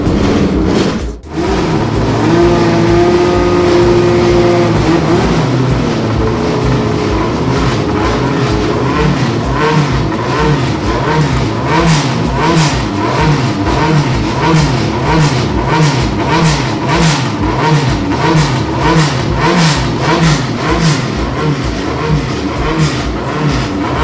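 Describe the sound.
A current-season Formula 3 race car engine starts with a brief catch and settles into a loud, buzzing idle. It then revs again and again in quick rising-and-falling bursts that come faster toward the end.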